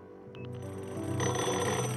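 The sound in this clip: A telephone rings on a dockside jetty. A short, high, trilling burst comes first, then a denser, louder ringing carries on to the end over a steady low background.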